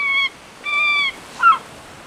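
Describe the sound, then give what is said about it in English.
Three loud, nasal gull calls ring out alone, each a short, harsh, honking cry, the last one briefer and sharper than the first two. “There's different types of gulls.”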